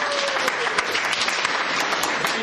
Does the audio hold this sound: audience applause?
yes